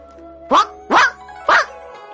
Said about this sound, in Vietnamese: Con chó to kia cũng sủa loạn cả lên.